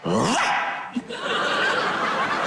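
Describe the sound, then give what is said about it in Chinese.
A voice imitates a dog barking, a few rough yelping bursts at the start that blend into loud, continuous laughter. “什么狗叫啊？”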